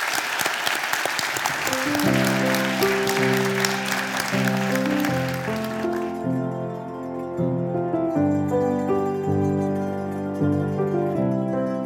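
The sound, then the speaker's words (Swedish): Warm applause from an audience thanking an author at a literary book event in Luleå: dense, steady clapping that fills the first half, then gives way to music. “Och så ska vi ge Gunnar en varm applåd och tacka för den här fantastiska boken.”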